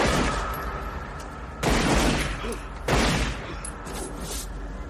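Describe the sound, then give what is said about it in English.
Gunfire from a crime film shootout scene in which a man turns and fires: two loud bursts of shots stand out from dense, noisy action sound. “Turns and fires.”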